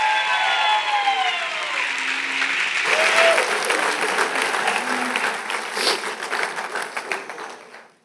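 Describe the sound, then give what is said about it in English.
Audience applause welcoming a speaker to the stage at a Christian Chi Alpha gathering: sustained, dense clapping with a few shouts near the start, tapering off at the end. “Would you guys give a great big welcome to Dick Brogdon?”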